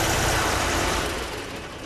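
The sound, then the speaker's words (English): Heavy engine roar and mechanical din as armored personnel carriers, tanks and other military equipment are loaded onto trucks in Afghanistan. The dense, steady rumble eases slightly toward the end. “That is the sound of armored personnel carriers, tanks, and other military equipment being put on trucks in Afghanistan.”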